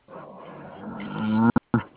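A long, low moo of a cow swells steadily louder for about a second and a half, then breaks into two short, abrupt bursts.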